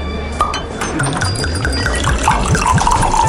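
Wine glugs from a bottle into a glass at a wine bar. The gurgles come in a quick, regular rhythm and climb in pitch as the glass fills, over a steady, moderately loud pour.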